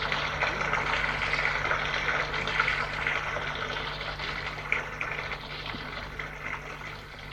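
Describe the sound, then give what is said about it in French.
Water poured from a jug into a bathtub, a steady rushing, splashing flow that stays loud and even throughout over a low hum. “il prend un broc et remplit d'eau la baignoire.”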